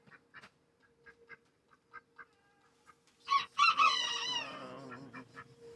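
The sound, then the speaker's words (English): Ducks quack in a string of short, faint, evenly spaced calls, then break into a louder burst of overlapping quacking that trails off. “Quack, quack, quack, quack, quack,”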